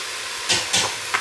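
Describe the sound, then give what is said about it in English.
Stirring and sizzling of frying vegan beef-style mince from This Isn't Beef as herbs and spices go into the pan: three brief scraping bursts over a steady, hissing sizzle. “So I've broken down the mince where I've needed to. I'm now going to add the herbs and spices. So a teaspoon of this stuff.”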